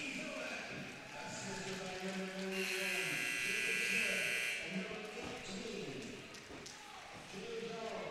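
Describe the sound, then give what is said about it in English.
A hockey arena buzzer ends the first period of a high school game between Marysville and Eisenhower, a steady, piercing horn lasting about two seconds over crowd noise and people talking. “The buzzer sounds to end the first period, and it's 2-0 Eisenhower after one.”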